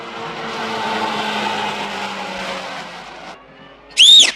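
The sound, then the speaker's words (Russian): A car chases down and catches up with a man, its engine droning steadily before easing off, followed by one short, sharp tire squeal near the end. “Машина догоняет его.”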